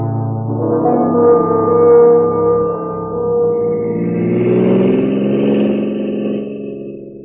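A car drives to the airport with a steady, moderately loud engine hum whose pitch shifts gently as it travels.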